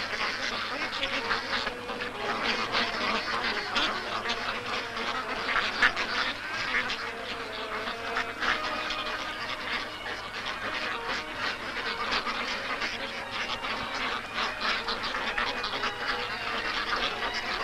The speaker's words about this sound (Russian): Утки, толпясь и толкаясь, жадно поедают еду.